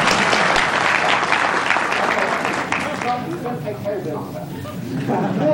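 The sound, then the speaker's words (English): Audience applause, a steady wash of many hands clapping, fairly loud at first and thinning toward the end while a man keeps talking over it. “And as part of your training, you have to applaud in these circumstances.”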